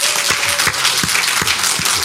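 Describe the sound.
Audience applause for a speaker after a talk on breathing, a loud, dense patter of many hands with a few sharper, regularly spaced claps cutting through the steady crowd noise.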